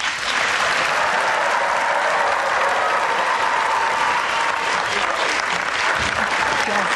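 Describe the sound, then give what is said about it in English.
A debate audience breaks into dense, loud applause to welcome Mike Pence and Tim Kaine, a steady roar of clapping that holds without a break. “They've agreed to only express that enthusiasm once at the end of the debate and right now as we welcome Governor Mike Pence and Senator Tim Kaine.”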